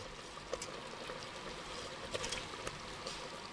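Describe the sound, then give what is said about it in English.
Pasta goes into a pan of creamy miso mushroom sauce with soft, faint bubbling and a few light splashy clicks. “But at this point, we're going to add in our pasta.”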